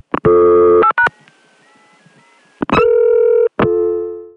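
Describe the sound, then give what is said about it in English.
Telephone dialing over a local dial tone into a telephone network: a few loud, buzzy, harmonic-rich tone bursts at the start and end, with a faint, wavering steady tone between them and no talk. “every time I call the Contelnet from my local dial tone, except in the middle of the night, you're going to hear a little bit of that while I'm dialing those two digits”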